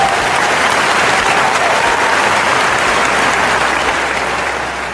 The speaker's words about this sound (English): He has a clap track.